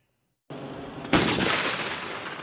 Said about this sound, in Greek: Το πυροβολικό του στρατού του Ισραήλ από εδώ, από τον Νότο, στοχεύει το βόρειο τμήμα τη Λωρίδα τη Γάζα και πιο συγκεκριμένα τι περιοχέ Τζαμπαλίγια και Σαντζάια